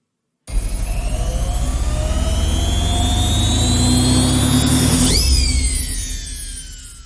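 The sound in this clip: A magic washing machine spinning socks gives a loud, steady, jet-like roaring whir with slowly climbing tones. A sharp whooshing pitch sweep comes near the end before the drone eases off.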